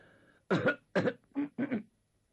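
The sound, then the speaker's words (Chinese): A voice imitates a warlord rising to address an assembly and clearing his throat, giving four short, rough throat-clearing bursts in quick succession, then falling silent. “张作霖站起身来，先清清嗓子”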